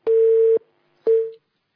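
Telephone tones as a call connects on a phone-in line: two steady mid-pitched beeps, a long one followed by a shorter one, heard alone with silence between.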